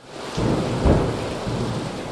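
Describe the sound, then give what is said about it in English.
Torrential rain pounds down outside on an already saturated town during a storm, a loud, dense, continuous hiss with a low thunder rumble swelling through the middle. “Outside, the rain pounds down.”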